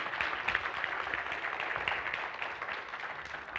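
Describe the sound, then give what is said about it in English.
An audience claps in steady applause to welcome a speaker at a Sunday gathering, a dense, even patter of many hands held at a constant, fairly soft level without any clear peak. “if you would just put your hands together, give a warm welcome”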